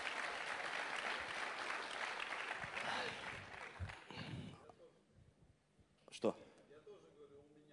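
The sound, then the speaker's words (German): Applause from a gathered group: dense clapping for about four seconds that thins and fades, after which people talk over a quieter background. “Ihr könnt ihr einen Applaus geben.”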